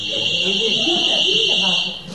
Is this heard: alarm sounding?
yes